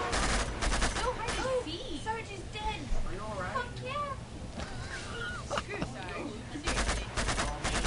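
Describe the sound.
Automatic gunfire in a video game, fired freely and wasting bullets: dense rattling bursts at the start and again near the end, with people talking over the quieter stretch between them.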